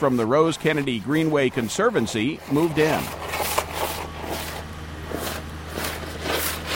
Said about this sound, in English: That is the sound of a machine called an air spade loosening up the soil by injecting a blast of air into it, soil that had been compacted by the weight of the hundreds of tents